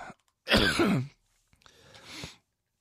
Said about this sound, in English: I'm being distracted by coughing.